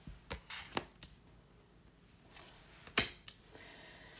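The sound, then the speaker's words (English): Cards being pulled from a deck make a few soft, faint snaps and brushing rustles, spaced irregularly, with the sharpest flick near the end and no voices. “So I'm pulling some cards right now, as you can hear.”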